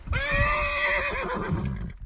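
A mare whinnies at a creek she refuses to cross, a loud, wavering neigh lasting about two seconds over a rough, low rumbling background.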